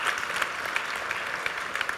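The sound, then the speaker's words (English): A round of applause from an audience: many hands clapping in an even, dense texture, fairly loud and sustained across two seconds, with scattered sharper claps on top and no talking. “Would you give him a round of applause?”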